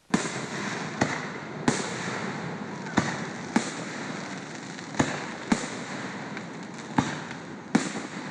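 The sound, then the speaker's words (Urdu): Fourth of July fireworks at a lakeside park in Fairfax, Virginia, near Washington, send sharp booms at irregular intervals over a continuous crackling, hissing background. “یہ آتش بازی امریکی دارالحکومت Washington کے قریب Virginia کے ایک خوبصورت لیک فیئرفیکس پارک میں کی جا رہی ہے۔”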